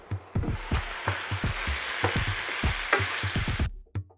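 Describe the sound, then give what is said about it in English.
Dry bottle gourd (loki) sabzi sizzles steadily in a pan while being stirred, with many rhythmic scraping strokes of the spoon over the frying hiss. The sound cuts off sharply near the end. “So we'll cook loki, as I said, for 15 to 20 minutes while covered with stirring occasionally.”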